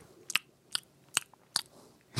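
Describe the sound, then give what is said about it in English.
Crisp bites and crunches into a Kit Kat chocolate bar: five sharp, dry cracks spaced about half a second apart, the last one fuller and longer, with quiet pauses between and no talking. “This is the sound of a Kit Kat.”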